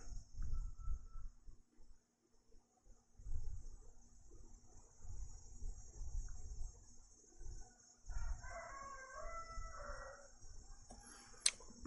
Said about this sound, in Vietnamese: Ve ve ve ve, con ve đã kêu, mùa hè đã đến.